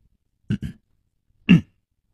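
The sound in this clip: A dry cough and throat clearing performed by a storyteller's voice: two quick rough bursts, then a pause and one louder, fuller clearing, with no other talk around it.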